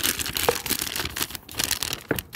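Crinkling and rustling of a plastic piping bag being filled, with soft, irregular crumples and a few brief sharper crackles, fairly quiet and continuous throughout.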